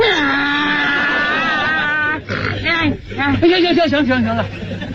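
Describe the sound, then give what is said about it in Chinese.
A human voice imitates a donkey's bray, starting with a long, wavering drawn-out tone and then breaking into a loud run of strained, rising-and-falling cries that alternate like a hee-haw. “到现在我连驴叫我都能学。你要不信我给你学学。”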